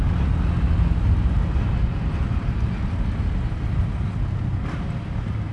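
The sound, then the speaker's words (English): Engine of a new Bajaj BS6 motorcycle running and being revved lightly by its rider, a steady, fairly loud low drone with a rough texture that holds throughout. “That's what I tend to do, rev up, just a little bit.”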